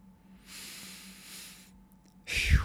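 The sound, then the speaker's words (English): A person takes a deep breath: a long, soft, breathy inhale lasting about a second, then a pause and a short, louder puff of air at the end. “So I had to take a deep breath there because that was a lot to take in”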